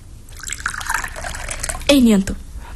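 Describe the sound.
Water poured or fetched in a brief splash of about a third of a second, arriving near the end after a stretch of quiet talk.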